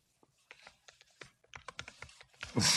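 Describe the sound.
Fingers type on a computer keyboard, a string of many soft, irregular key clicks that start faint and grow busier and louder toward the end.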